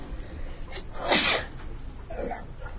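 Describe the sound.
A single sneeze bursts out midway, moderately loud against a low, steady background hiss.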